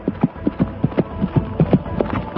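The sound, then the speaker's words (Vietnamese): Horse hooves thud in a quick, driving rhythm as a rider gallops off, with many hoofbeats in an even, steady pattern throughout. “chàng chắp tay từ giã, xoay người nhảy lên ngựa, ra roi chạy ngay.”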